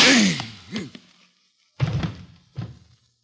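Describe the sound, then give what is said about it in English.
Two dull, thudding gunshot effects sound in a radio drama shooting, about a second apart, after a short vocal sound at the start. “You killed him. He was going to kill me. Operator? Mr. Adams has been shot.”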